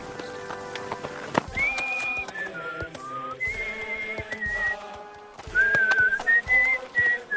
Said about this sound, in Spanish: Es un abuelo con su nieto jugando, silbando.